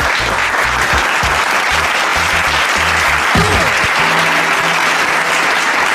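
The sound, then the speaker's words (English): Sustained applause and cheering from a crowd welcome the host of a sports talk radio show. The clapping stays dense and loud from start to finish. “And now, please give it up for your host, Big Lou.”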